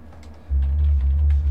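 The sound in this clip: Typing on a computer keyboard, with a few soft, quick key taps over a steady low hum that starts partway through.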